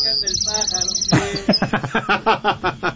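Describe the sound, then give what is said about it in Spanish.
Small birds chirping in a quick, high-pitched run of repeated tweets for about a second, followed immediately by a person talking over low background sound. “¿Y ahora por qué los pajaritos?”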